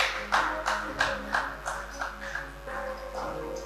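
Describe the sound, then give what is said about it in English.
A church audience claps along in rhythm during worship, with many sharp, evenly spaced claps at a steady beat over a low hum, fading slightly toward the end. “Why don't you put your hands together for the Lord?”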